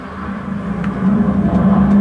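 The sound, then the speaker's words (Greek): Roaring rumble of a Phantom military jet passing overhead, a broad, steady drone that swells louder partway through, with no voices. “Περνάει ένα φάντομο από πάνω σου, για ποιο λόγο δεν ξέρουμε.”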